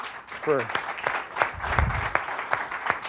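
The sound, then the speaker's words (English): Sparse clapping from an audience at a live technology demo presentation: a few sharp, fairly evenly spaced claps, faint, with a voice briefly heard near the start. “I think we should give him a round of applause”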